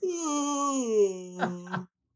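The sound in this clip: A voice imitates a yawn with a long, drawn-out voiced tone that slides gradually lower in pitch, then ends with two short breathy bursts before cutting off.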